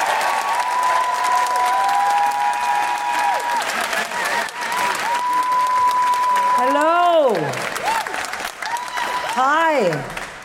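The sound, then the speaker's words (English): An audience at a live comedy show applauds and cheers a comedian with sustained, dense clapping, while several rising-and-falling whoops and shouts break out over it toward the end. “And now put your hands together and make extraordinary noises for the wonderful Sindhu V.”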